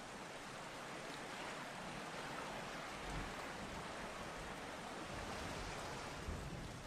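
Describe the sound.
Rain falling as a faint, even hiss that runs the whole time without breaks or voices.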